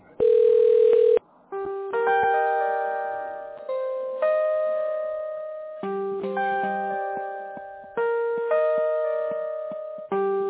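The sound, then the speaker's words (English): Telephone ringing tones while a call is being dialed: a steady electronic tone, then repeating bursts of layered beeps recurring about every two seconds, clear and loud with no talking. “So it's dialing right now. You'll hear the ring, but I'm still here, ma'am.”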